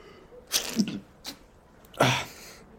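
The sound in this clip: A person sneezes: a quiet breathy build-up of short catches, then one sharp, louder burst near the end.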